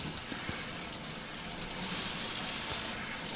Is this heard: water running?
yes